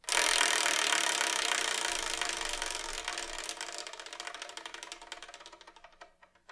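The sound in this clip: A prize wheel spins to pick a manga, giving off a dense, rapid ratcheting clatter that gradually slows, the clicks thinning out and spacing apart until a few separate ticks remain at the end.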